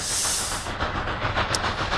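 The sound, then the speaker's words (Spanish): A train locomotive sound effect gives a steady rushing hiss with faint rhythmic pulses running through it, fairly loud and without voices. “Y vamos a coger nuestra locomotora.”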